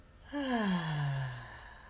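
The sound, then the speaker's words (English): A single audible exhale through the mouth during a guided breathing exercise, voiced like a soft sigh that slides downward in pitch and fades out gently, with no talking over it. “We breathe in and hold and exhale through our mouth. Breathe in and exhale. Breathe in and exhale.”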